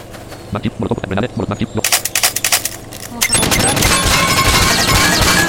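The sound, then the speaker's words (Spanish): Video game gunfire during a shooter match: a few sharp, separated shots ring out first, then a dense, continuous rattle of rapid fire takes over for the second half, loud and unbroken. “No puedo comprar nada que me está disparando.”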